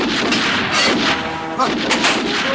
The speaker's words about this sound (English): The shell shoots out the back of the gun.